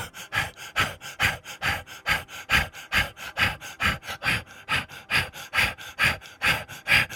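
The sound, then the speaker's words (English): Rapid rhythmic breathing during a guided breathing exercise: many quick, forceful breaths in and out, evenly paced and breathy, repeating without pause for the whole stretch. “We will resume the breath now from again the root chakra. Breathe.”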